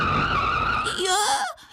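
Car tyres squeal in a skid as the car nearly runs someone over near a road crossing, a loud, sustained high screech with a wavering pitch that cuts off abruptly.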